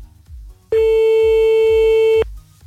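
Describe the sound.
A telephone line tone sounds as a call is placed: one steady, mid-pitched electronic tone holding for about a second and a half. Faint low rhythmic thumps sit underneath it.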